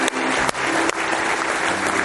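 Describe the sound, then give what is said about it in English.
A church audience claps its hands in praise during a worship service, a dense, steady burst of loud applause that fills the whole short stretch on its own. “Give the Lord one more hand clap of praise tonight.”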